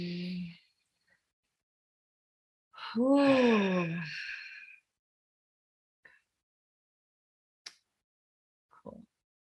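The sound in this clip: A deep breath released as one long, voiced sighing exhale with a wavering tone, preceded by a short breathy sound and followed by a few faint clicks in near silence.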